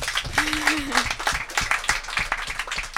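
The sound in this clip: Audience applause for the hosts at a school sports event at the Lycée français de Singapour: a steady, moderately loud patter of many clapping hands, with a voice talking over it.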